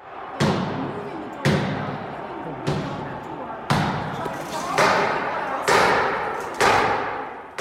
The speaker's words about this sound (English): This is the sound of the violent mob literally trying to bust down the doors of the Capitol building, tweeted by Slate's Jim Newell yesterday afternoon.